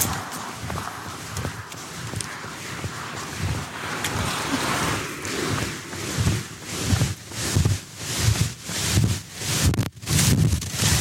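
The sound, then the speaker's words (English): Wind buffeting a microphone as someone runs into it, a loud, broad rushing roar with rhythmic thumping footfalls pulsing through the second half. “So you may or may not be able to tell. I'm running into the wind.”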